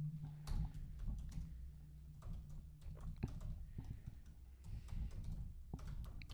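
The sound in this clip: Typing on a computer keyboard comes through as faint, irregular, quick clicks and taps over a low, steady hum, with no clear speech.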